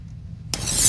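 Dinner cooking in a home kitchen: after a near-silent half second with a low hum, a loud, bright frying hiss bursts in and keeps building to the end.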